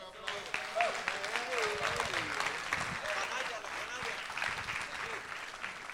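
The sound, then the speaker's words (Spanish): Audience applause welcoming a preacher at a church teaching on finances: many hands clapping in a thick, sustained burst, with voices sounding over it, steady and fairly loud to the end. “Como el aplauso fue tan generoso, van a pasar toda la enseñanza de pie”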